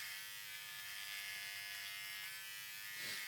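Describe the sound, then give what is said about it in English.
An electric shaver buzzes steadily while shaving, a faint continuous high-pitched drone with no pauses throughout. “Yeah, I'm shaving.”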